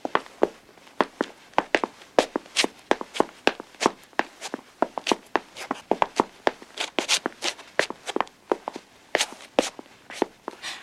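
Footsteps of people going upstairs, with many quick, irregular steps thudding and tapping steadily throughout, fairly soft and alone without talk.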